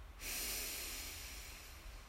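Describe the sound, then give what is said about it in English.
A deep breath drawn in during a guided breathing exercise: one steady, airy inhale lasting about two seconds, with no talk over it. “Another deep breath in.”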